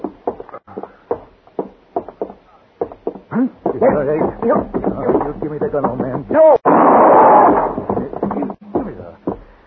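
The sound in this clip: A loud gunshot bursts out partway through a tense scene of confrontation over a rifle, with clipped talk from men before it and a dense, noisy roar trailing the blast.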